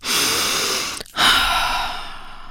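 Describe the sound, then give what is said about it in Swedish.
Deep breaths from a nervous performer in a dressing room before a show: two long, loud, airy rushes of breath separated by a brief pause, with no talk. “Jag tar några djupa andetag.”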